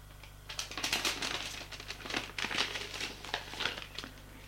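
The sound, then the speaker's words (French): An envelope torn open, with paper crinkling in many quick, irregular crackles and rustles over a low steady hum. “Tend l'enveloppe à la fille. Tiens. Elle ouvre l'enveloppe.”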